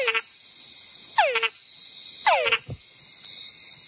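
Three frog calls, each a whine that slides downward in pitch, the last followed by a short low chuck, heard over a steady high-pitched insect drone.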